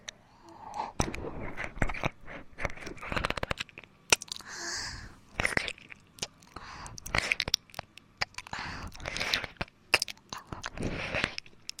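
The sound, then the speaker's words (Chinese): Crunchy bites and chewing on food: many crisp crunches in irregular bursts, with short pauses between them and no talk. “好想吃一口呢，可以吗？要不说话啊，那我就吃了。”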